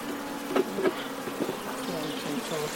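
A honeybee swarm buzzes continuously as it is moved onto a new hive: a dense, moderate drone with a few brief louder surges from individual bees.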